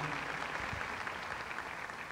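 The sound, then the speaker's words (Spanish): Audience applause for an orchestra at a concert, a faint but continuous rush of many hands clapping at once, even in level from start to finish. “Un aplauso para la orquesta, por favor.”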